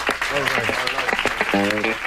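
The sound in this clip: Applause from an audience at a comedy show, a steady wash of many hands clapping, with voices calling out over it throughout.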